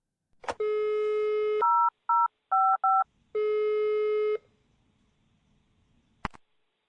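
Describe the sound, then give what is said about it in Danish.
Telephone dialing tones for a call to a talking clock: a long steady tone, a quick run of short beeps, then another long tone, with sharp clicks at the start and end. “der er nemlig en knap, hvor der står ring til frykkenklokken, og når man trykker på den, så lyder det sådan her.”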